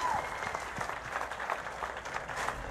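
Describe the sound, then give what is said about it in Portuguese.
Faint, even applause from a radio show audience, a soft patter of many hands clapping steadily for a few seconds. “Uma salva de palmas, milionários.”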